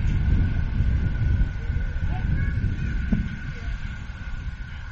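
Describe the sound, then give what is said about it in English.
Wind gusts from the southwest at about 18 miles an hour across an outdoor amateur baseball field, a steady, loud low roar buffeting the microphone throughout. “Wind kicking up here at Gastineau.”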